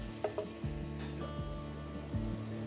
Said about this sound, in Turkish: Şöyle kaburgamızı aldık tavaya.